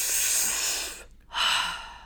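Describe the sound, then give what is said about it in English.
Exaggerated breathing meant to release tension: two long, airy, hissing breaths separated by a brief silent pause, the first fading gradually and the second starting abruptly and strongly. “one of the ways of using your breath to release tension is really deciding to breathe to let go. Mm-hmm. So exactly what you're doing. I'm going to exaggerate a little bit, but it will be like...”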